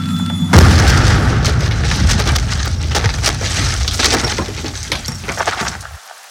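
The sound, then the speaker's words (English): A .50 caliber round fired point blank into a house wall: a sudden loud boom, then several seconds of crashing, splintering wood and breaking glass that stop abruptly. “Ever wonder what a 50 caliber round do to a house wall from point blank range?”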